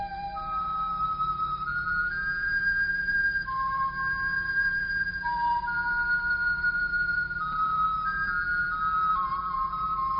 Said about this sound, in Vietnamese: Tiếng sáo nhẹ như một làn khói nhỏ lơ lửng và nhẹ nhàng đi lên từ một mái tranh nghèo nào đó ở ngoại thành Ca Tỳ La Vệ